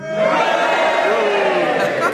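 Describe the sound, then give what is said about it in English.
A studio audience at a panel game cheers together in a loud, sustained roar of massed voices that swells in the first moments and then holds steady. “If you think it was a definite hesitation, then you cheer for John Junkin. But if you don't, you boo for Tim Rice, and you all do it together now.”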